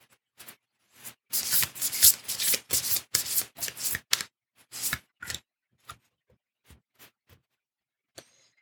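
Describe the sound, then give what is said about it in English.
A deck of intention cards is shuffled, a dense burst of papery riffling and slapping, followed by scattered soft taps and flicks as a single card is drawn. “So let me just pull a card.”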